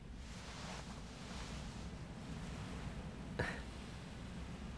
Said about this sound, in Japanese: 波の音が気持ちいいね。